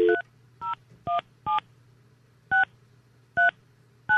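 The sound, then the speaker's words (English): Telephone keypad tones as a wrong number is dialed on a phone: seven short dual-tone beeps in an uneven rhythm, separated by gaps, over a faint low steady hum. “Did I turn off my phone? I dialed the wrong number.”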